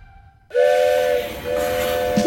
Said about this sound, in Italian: Il treno.